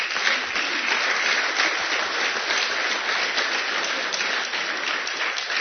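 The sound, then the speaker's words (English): An audience in a church gives a steady round of applause for the building's architect, a dense, even roar of many hands clapping that holds at a constant level without talk. “and a well-deserved round of applause for him.”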